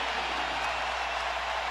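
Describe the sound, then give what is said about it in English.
Crowd applause at a basketball game as the rookie of the year checks in: a continuous, even roar of clapping and crowd noise, sustained without breaks at moderate loudness. “You have Scotty Barnes, the rookie of the year, checking into the game right now, and the crowd giving him his ovation, his applause, his”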